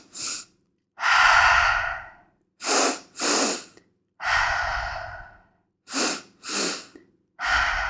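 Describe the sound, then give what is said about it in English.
Rescue breathing as a coping exercise: pairs of sharp inhales through the nose with the mouth closed, each pair followed by a long, audible breathy exhale through the mouth, repeated in an even rhythm. “So the rescue breath is two sharp inhales through the nose with your mouth closed, and then exhaling audibly through your mouth.”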